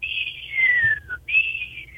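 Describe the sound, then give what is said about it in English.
A person whistles in imitation of an American kestrel's high-pitched call: a sustained shrill whistle gliding downward, a brief break, then a second steady high whistle that tapers slightly, clear and alone. “there's a bird that I hear every now and then above where I live, and it'll be a high-pitched whistle like a hawk, just a”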